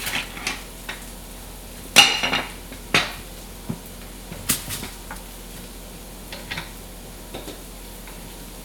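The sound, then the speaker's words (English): Sharp slicing strokes of a potato being cut into round pieces on a mandoline, turned slightly as it goes; many crisp, irregular clicks and scrapes, a few louder than the rest. “So you're trying to get round-ish pieces, you know, with your potato, but mine doesn't quite fit on the mandolin, so I'm turning it a little bit.”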